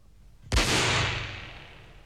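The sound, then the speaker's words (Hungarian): A single gunshot fired into the air during a duel gives one sharp, loud crack followed by a long rumbling tail that slowly fades, with no voices. “A levegőben lőtt, uram!”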